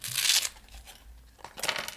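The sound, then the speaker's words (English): Paper crinkling and tearing as returned wallets and envelopes are opened, heard in two short, faint bursts of rustling separated by a quiet pause. “The volunteers collect the sacks of wallets that have been left by Royal Mail and begin opening the wallets that have been returned.”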